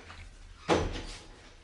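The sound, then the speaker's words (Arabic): A door swings shut with one solid thud and a short decaying rumble, standing out from quiet background. “اتفضلوا من غير مطرود، اتفضلوا تعالوا واقفلوا الباب علينا”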